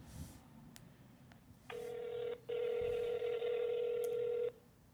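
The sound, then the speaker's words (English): Telephone dialing tones: a short steady electronic beep, then a longer one lasting about two seconds, with a few faint clicks around them. “Let me give Pat a dial and see how he's doing on this fine evening.”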